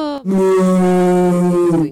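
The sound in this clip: A human voice imitates a cow's moo with one loud, sustained, low, nasal tone lasting about a second and a half, heard alone.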